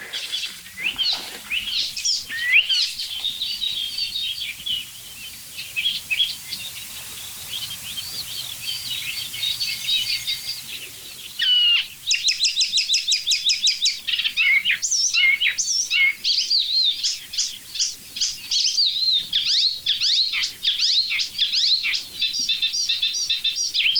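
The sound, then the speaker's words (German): Dense birdsong with tits among the singers: bright, high chirps, whistles and trills overlap continuously, loud and steady throughout with no voices. “Meisen drin, Alarmanlagen, irgendwelche Vögel aus ferner Landschaft.”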